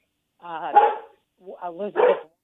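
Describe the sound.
A dog barks during a phone call in two drawn-out, wavering bursts, the second breaking into several quick yowling pulses, heard alone and fairly loud.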